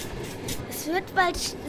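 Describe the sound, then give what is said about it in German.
A train pulls into a station in a children's radio play, a low rumbling rush of rail noise with two brief rising tonal whines near the end. “Achtung, der Zug fährt gleich ein.”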